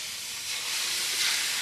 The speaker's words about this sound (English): I'm just putting the radish into the pan.